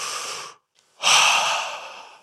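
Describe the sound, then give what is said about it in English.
A big, deliberate breath through the mouth: a shorter airy breath cuts off, and after a brief silence a longer, louder breath swells and slowly fades away. “One big breath.”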